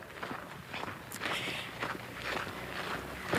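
Footsteps of people walking: a steady series of soft, scuffing steps at an unhurried pace, fairly even in loudness, with no talk over them.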